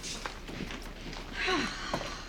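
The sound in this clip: Faint footsteps walk into a dining room. A few soft, scattered steps land over low background noise.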